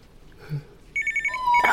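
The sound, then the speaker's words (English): A telephone ringing: after a quiet stretch, a bright electronic trill of rapidly pulsing tones begins partway through and grows louder toward the end. “it's only the phone. I'll have to pick it up.”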